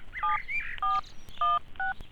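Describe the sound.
Keypad tones of a mobile phone being dialed: four steady two-tone beeps, evenly spaced and clear, with faint clicks and a brief rising chirp near the start.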